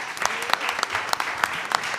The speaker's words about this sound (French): j'aimerais les applaudir